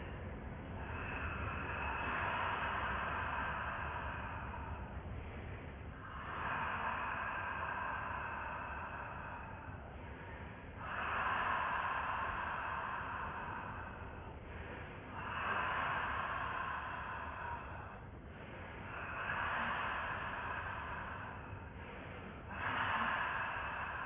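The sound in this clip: Slow, deep exhalations during a guided breathing exercise: several long, soft, airy breaths follow one another with brief pauses between them. Each breath lasts a few seconds at an even, moderate volume.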